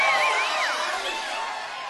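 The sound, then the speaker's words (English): Crowd going wild as a show host is introduced: loud, dense cheering with high yells and hooting whoops, sustained at a steady level for the whole moment. “And the crowd goes wild, screaming, yelling, hooting, hollering.”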